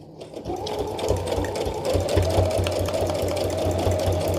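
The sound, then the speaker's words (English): Sewing machine fitted with a regular universal needle stitching through paper, a continuous rapid mechanical whir with fine clicking that holds steady throughout. “I'm using a universal needle, just a regular needle. Probably one that came with the machine.”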